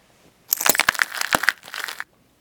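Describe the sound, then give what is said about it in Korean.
Footsteps crunching over broken light bulb glass in a half-basement of a ruined house: a brief burst of sharp, crackling crunches lasting about a second and a half, alone. “연유의 뒤를 따라온 유라와 현우가 깨진 전구를 밟으며 낸 소리에 반지하에 있던 검은 형체들이 뒤에 구멍과 창문을 통해 후다닥 도망갔다.”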